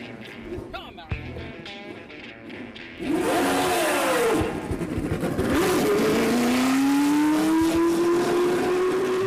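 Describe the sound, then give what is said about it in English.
A 1978-79 black and gold Lotus race car fires up on a racing circuit during a ribbon-cutting ceremony. Softer sounds come first, then the engine bursts into a loud roar, revs up and down, and settles into a steadily rising howl. “that was Mario Andretti's 78-79 black and gold Lotus firing up on the track at Circuit of the Americas.”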